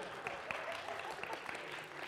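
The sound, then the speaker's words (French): Faint applause from an audience during a church service: a soft, continuous patter of clapping with a few sharper individual claps standing out. “Oh, et on peut l'applaudir.”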